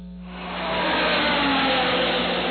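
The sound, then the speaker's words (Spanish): A Formula 1 racing car engine roars during a pit stop for a four-tyre change. The dense mechanical noise swells from a quieter start within the first second, then holds steady and loud to the end. “Ahora sí, ponme el video de la Fórmula 1, por favorcito.”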